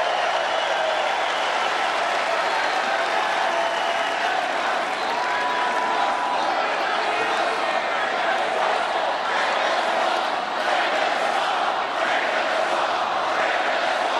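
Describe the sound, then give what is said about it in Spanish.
A political rally crowd chanting 'drain the swamp', a loud, dense, sustained roar of many voices mixed with cheering that stays at an even level throughout. “El público grita que sequen el pantano.”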